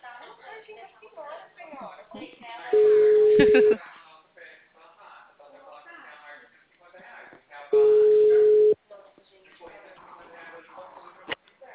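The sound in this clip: Ringback tone on an outgoing phone call: two steady, level beeps of about one second each, roughly five seconds apart, with people talking in the background throughout.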